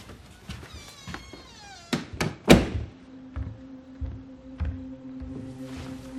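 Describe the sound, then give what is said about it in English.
A bedroom door being shut, heard as three sharp, heavy thuds in quick succession after a cat's meowing, followed by a faint low hum and a few soft knocks. “They wave at Cody and shut the door.”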